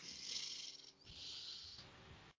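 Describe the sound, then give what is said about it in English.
A deep inhale drawn through the nose during a relaxed breathing exercise, heard as a soft, sustained airy hiss with a brief dip partway through and no talking. “So let's take a nice, beautiful inhale. I like to breathe through the nose.”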